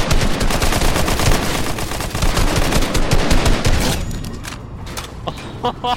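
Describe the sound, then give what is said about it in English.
Automatic gunfire in a video game, with enemies shooting down from the top of a tower: dense, loud, continuous bursts for about four seconds, then thinning to a few scattered shots. “They're all sitting up at the top of the tower just shooting down.”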